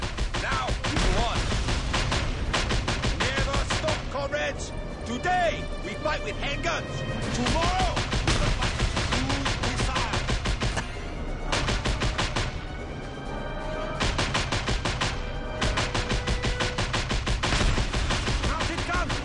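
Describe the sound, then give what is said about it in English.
Video game gunfire from Just Cause 2 as a helicopter is shot out of the sky. Many rapid shots come in long, crackling strings, with people talking over the shooting. “We're about to shoot a helicopter right out of the sky here in Just Cause 2. And it's going down. There it goes.”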